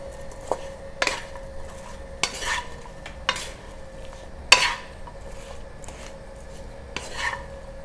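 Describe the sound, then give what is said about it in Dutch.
A spoon stirs and mixes food in a large pan, giving a steady scraping rhythm broken by several sharp clinks of metal against the pan, with no voices. “Dan ga ik nu eh, eh, mixen.”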